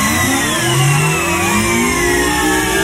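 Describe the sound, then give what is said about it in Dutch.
A supercomputer starting up as a sound effect: loud, dense whirring that sounds like a revving engine, with layered tones gliding up and down, holding steady throughout. “We starten de supercomputer nog eens op.”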